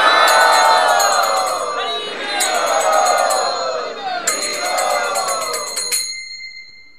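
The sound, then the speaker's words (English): A crowd loudly chants the holy name in welcome at a devotional gathering, many voices rising in waves over bright metallic ringing tones, then fading at the end. “Let us welcome them by loudly chanting the holy name.”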